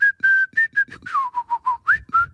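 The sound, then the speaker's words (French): A person whistles in imitation of a bird: many short, clear, high notes in quick rhythm, the pitch stepping down partway through, with a brief upward swoop near the end. “Mais moi aussi, je peux siffler.”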